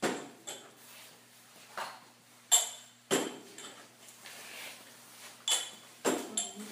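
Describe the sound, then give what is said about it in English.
Small ceramic lids being lifted and set back onto small teapots during a tea cupping: a few sharp, light clinks scattered at irregular intervals, quiet overall, with soft handling noise between them. “What you're hearing right now are small ceramic lids being lifted and covered back onto the small teapots.”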